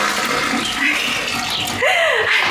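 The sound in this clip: Water rushing from a toilet flush, a steady and fairly loud wash of water that continues throughout, with a brief voice near the end.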